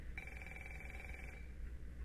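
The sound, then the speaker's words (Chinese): A telephone rings once, a faint, steady electronic trill lasting about a second before cutting off, leaving a low background hum. “稍等一下，喂，是个业务电话。”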